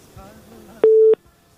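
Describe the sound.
A telephone busy tone after a dropped call: one short, steady mid-pitched beep cuts in sharply after a low voice and stops just as abruptly.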